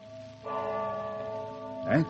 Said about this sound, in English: What's that? The church bell. The church bell. The passing bell. The funeral bell.